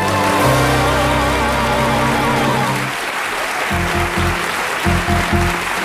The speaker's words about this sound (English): and gentlemen, will you please put your hands together for Harry Hill and the Royal Family of Hill?